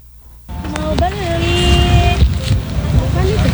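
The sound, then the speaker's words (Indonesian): Roaring vehicle traffic on a busy street corner: a low, rumbling wash of engines that rises after a brief quiet opening and stays loud, with a few sustained tonal sounds riding above it. “Di sudut jalan yang hiruk pikuk oleh deru kendaraan”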